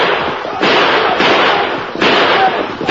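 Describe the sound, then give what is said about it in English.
Loud gunshots ring out in a fight with an armed gang, with a few heavy, harsh blasts arriving one after another over a thick, continuous roar of noise. “Shoot them now, Red Fox! Kill them!”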